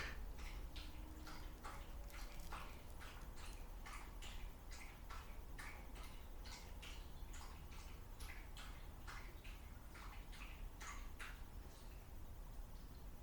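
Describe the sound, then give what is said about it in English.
A dog lapping up drinking water: many quick, evenly spaced wet clicks and splashes in a steady rhythm, faint throughout, with no talking. “That's just the dog. He's drinking water.”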